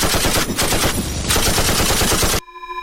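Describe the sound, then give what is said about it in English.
Machine-gun fire bursts out in a fictional shootout, a rapid, loud stream of many shots packed tightly together. It runs for about two and a half seconds, then stops abruptly, leaving only faint ringing noise. “Hey, that one's got a gun. Oh, this isn't my gun. Open fire.”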